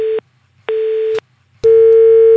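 Telephone line tone after the other party hung up: a steady mid-pitched beep comes in on-off pulses, then settles into one unbroken tone, loud and with no voices.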